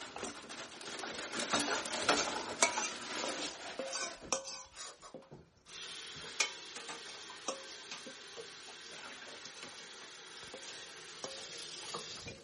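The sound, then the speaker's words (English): A utensil scrapes the last bits of food out of a mixing bowl during home cooking, making many quick, quiet scratches and clicks in an uneven rhythm, with no talking. “So I'm just seeing if I can get any more out of the bowl.”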